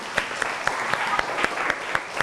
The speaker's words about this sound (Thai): โอเคเก่งมากปรบมือเพื่อนลูก